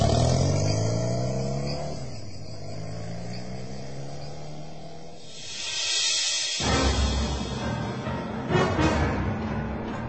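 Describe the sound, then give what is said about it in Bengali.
A car pulls away fast after its doors are slammed shut, the engine rising into a sustained, loud revving roar that swells toward the end, with a sharp burst of noise partway through. “খটাখট দরজা বন্ধ করে দিয়ে দ্রুত বেগে গাড়ি ছুটে চলে গেল।”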